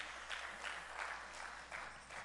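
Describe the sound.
Soft group applause welcomes new volunteer team members for a youth program: a steady patter of clapping with a few gentle swells, quiet throughout.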